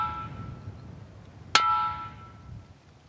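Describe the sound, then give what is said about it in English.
A ringing rock, used as a rock gong in a remote area, is struck once. The sharp, bright impact is followed by a clear metallic-like ring that fades over about a second against a quiet background. “And the sound of these ones were just even more incredible. It took a bit of time for us to figure out the best places to actually hit to get the best sound.”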